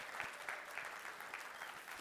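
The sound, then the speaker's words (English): Faint applause for a church technical team, a steady, even patter of many hands with a softly pulsing rhythm and no voices over it. “so just give them a round of applause.”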